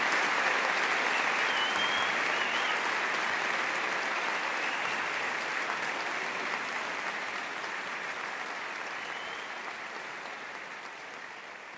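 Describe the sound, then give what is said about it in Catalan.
A concert audience gives long, sustained applause at the end of a live jazz big band and choir performance. Many hands clap in a thick, continuous roar that eases only slightly in loudness over the stretch. “Un llarg, llarguíssim aplaudiment, merescudíssim, va ser el final d'aquest concert”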